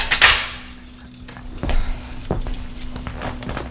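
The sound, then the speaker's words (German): A master key jingles briefly as it unlocks a ship cabin door, followed by a couple of dull mechanical clicks from the lock over a steady low hum. “Ich habe einen Generalschlüssel für alle Kabinen. Ja. Dann schließen Sie auf,”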